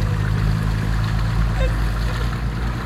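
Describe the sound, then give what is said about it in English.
A boat engine under throttle, a loud, steady low rumble with a wash of water noise over it. “Gabe pushes forward the throttle and the boat moves away from Valentina.”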